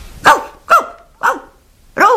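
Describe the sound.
A dog barks four times, loud and evenly spaced, each bark a sharp, rough burst with a falling tail.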